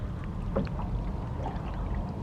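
Oars rowing a boat through water, with faint watery swishes and soft splashes over a low, steady wash.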